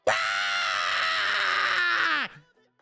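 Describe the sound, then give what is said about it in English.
A human voice imitates screaming goats in one long, loud, strained cry with a harsh, buzzy tone. The pitch drops sharply at the end before it cuts off. “There were two goats in the movie, and they screamed, and they sounded like this.”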